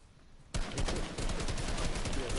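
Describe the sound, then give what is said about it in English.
Rapid gunfire erupts in a video game after a brief quiet moment, a dense continuous volley of shots that keeps going to the end. “Nope, I got shot. I'm dead.”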